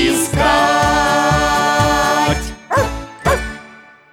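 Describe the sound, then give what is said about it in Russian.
A pet dog barks twice, two loud, sharp barks in quick succession just after a stretch of music ends. “Мой верный пес Алтай тоже с вами здоровается.”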